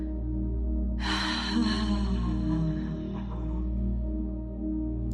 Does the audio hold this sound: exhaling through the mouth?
yes